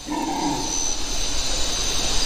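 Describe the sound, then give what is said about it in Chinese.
Hoarse, drawn-out roaring from a howler monkey rises in the first second and fades into a steady hiss that continues to the end. “咆哮声来自另一种猴子，吼猴。”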